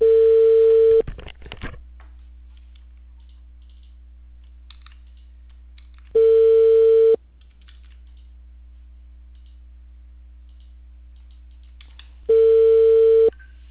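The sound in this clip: A telephone ringback tone sounds while an outgoing call is placed: three steady, mid-pitched tone bursts of about a second each, spaced roughly five seconds apart, with brief clicking after the first and quiet hum in between.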